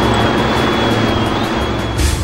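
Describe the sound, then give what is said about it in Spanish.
Helicopter taking off, a loud, steady roar of engine and rotors with a thin high whine running throughout and no voices. “Está despegando el helicóptero, se va de la Rúa”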